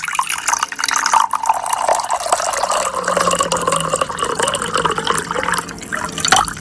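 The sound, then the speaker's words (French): Water runs continuously with a splashing, trickling rush that stays fairly even in loudness throughout. “Voilà, vous avez entendu, c'est de l'eau qui coule.”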